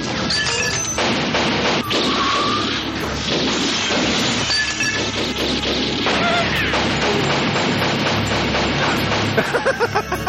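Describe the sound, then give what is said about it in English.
Gunfire in an action movie scene, with a gunman pumping many shots into one man: dense, loud bursts of booms and crashes that pile up with almost no pause. “That's one guy he just shot. Seven shots.”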